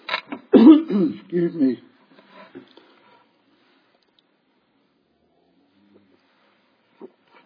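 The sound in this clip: Someone clears a lingering irritation from their throat in a few harsh, loud rasping bursts with a brief cough. Faint soft noises and near silence follow.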